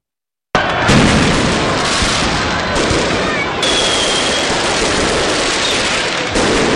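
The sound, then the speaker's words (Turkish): Fireworks exploding over a capital city's night-time celebration, a dense, loud barrage of crackling bursts and booms that runs continuously for about six seconds after a brief silence. “Kutlamaların finalinde ise gökyüzü havai fişeklerle renklendi.”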